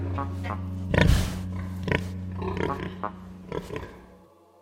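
Pigs grunt in a few irregular, low, snorting bursts, with one stronger grunt early on, over a steady low hum.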